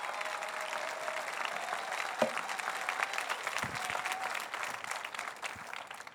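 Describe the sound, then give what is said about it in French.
Applause from a church audience giving an ovation during a morning worship service, a dense, steady patter of clapping that holds at an even level throughout. “Donnez-lui une ovation de 10 secondes ce matin.”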